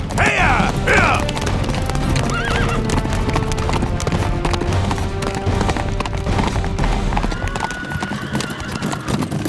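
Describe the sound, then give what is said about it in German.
Horse hooves clip-clop steadily as a horse-drawn carriage travels on a cold night, with a loud whinny near the start over a constant rumbling background. “Als die Kutsche schließlich vor Rumpelstilzchens Refugium hielt”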